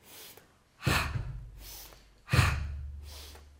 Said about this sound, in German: Und jetzt beginne ich einatmen durch die Nase, ausatmen durch den Mund.